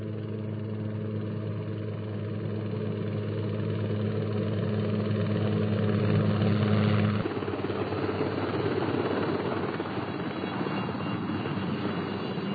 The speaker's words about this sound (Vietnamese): Phi công lái Chinook bay sát ngọn cây, lấy hướng về Đà Nẵng.